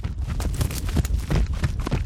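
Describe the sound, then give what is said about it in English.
Hoofbeats of an Arabian horse, picked up by wireless microphones fitted to its hooves as it is run in a circle on a rope. Many heavy, low thuds land in a quick, uneven rhythm with no talk. “I recorded an Arabian horse. Arabians have a different gait than thoroughbreds. And I put 4 wireless microphones on each hoof.”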